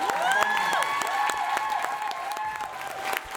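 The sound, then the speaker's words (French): A crowd claps and applauds in a convention hall at the end of a fan meet, with dense, steady applause and faint whistles and cheers throughout. “c'est un délire dans la salle, tout le monde applaudit”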